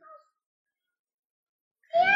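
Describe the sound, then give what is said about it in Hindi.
A child's voice imitates a cat's meow: one short, high meow-like call comes near the end, after a faint brief sound and a stretch of silence. “बिल्ली कैसे बोलती है म्याऊ”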